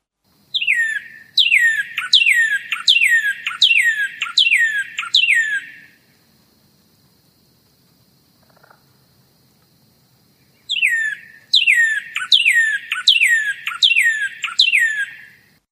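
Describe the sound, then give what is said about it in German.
Northern cardinal from Mexico and Central America calling: two bursts of loud, rapid, repeated downslurred whistles, about six or seven notes each, separated by a pause of several seconds of near silence. “Dann hier den Rotkardinal aus Mexiko und Zentralamerika.”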